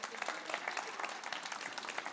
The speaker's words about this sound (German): Applaus!